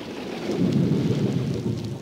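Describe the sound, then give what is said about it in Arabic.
Thunder rumbling through a storm under cold, cloud-covered skies, with rain. It is a loud, continuous low rumble with a steady hiss of rain across the whole clip. “أوه، صوت الرعد مخيف، لكنه يأتي بالخير، بالمطر”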